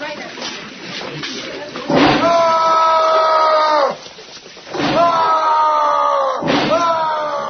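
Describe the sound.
A drawer is slammed shut three times, each slam a loud, sharp bang followed by a sustained tonal sound, with talking in the background.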